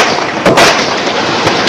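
Gunshots from a police officer firing on an unarmed man at a gas pump, captured by a police dashboard camera: a few abrupt, blunt bursts over constant loud background noise.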